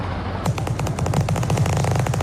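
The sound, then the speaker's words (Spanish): Gunfire as people shoot at each other: after a brief pause, rapid bursts of machine-gun-like shots crackle in a dense, steady stream of many sharp reports. “¿Qué es eso? Pues se están disparando, pues mira, los están matando.”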